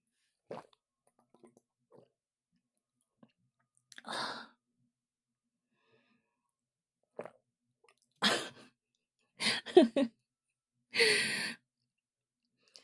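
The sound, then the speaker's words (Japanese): Water being drunk in gulps, heard as a few soft, separate swallowing and breathy bursts that grow more frequent toward the end, with quiet pauses between them and no talking. “私がただお水を飲んでるだけなんだけど”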